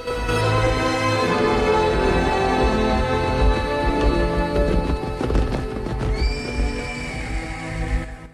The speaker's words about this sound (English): A heat haze ripples an image of the gang galloping across an expanse of grassland which is dotted with trees.